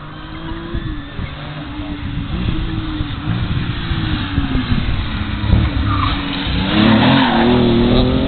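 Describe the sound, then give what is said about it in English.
A Porsche race car drives out of a corner on a track, laying rubber. Its engine roars loudly and steadily with some tire squeal, and the pitch wavers and builds toward the end. “And we've got something... another Porsche.”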